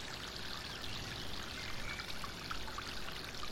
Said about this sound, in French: Suivons le cours de l'eau. Cette fontaine se déverse dans ce canal.